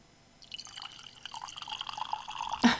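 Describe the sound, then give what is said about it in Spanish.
A drink poured in a small, thin stream for a toast: a steady splashing trickle that builds gradually over about two seconds, with no talk. “Ahí va. El chorrito. Y podríamos hacer un brindis, ¿no?”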